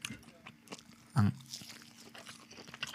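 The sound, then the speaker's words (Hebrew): Firm, fibrous meat-like food is bitten and chewed, with one loud crunch standing out among quieter, irregular chewing and mouth sounds. “הטעם, אנחנו מתנצלים. מה שאנחנו אוכלים לכם באוזניים.”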